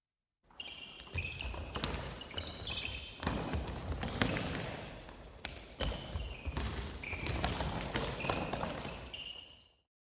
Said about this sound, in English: Basketball.